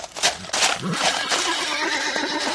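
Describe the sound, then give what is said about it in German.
A horse neighs happily at a reunion, a loud, drawn-out whinny carried over dense, noisy sound that fills the whole clip. “stupste ihn an und wieherte vergnügt über das Wiedersehen.”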